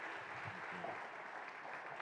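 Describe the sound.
Audience applause welcomes a speaker coming up at an evening Passover meal. A faint, steady wash of clapping runs evenly throughout.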